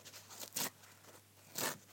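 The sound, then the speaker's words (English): Kitchen paper towel being torn into strips by hand, heard as two short, faint ripping bursts about a second apart over a steady low hum. “Tear it up into slim, long pieces. Right, do you want to tear it over here? So you can hear.”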